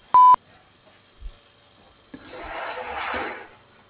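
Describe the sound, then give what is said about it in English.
A voicemail recording tone sounds as one short, loud, steady electronic beep, followed by quiet and then low background noise. “At the tone, please record your message. When you've finished recording, you may hang up or press 1 for more options.”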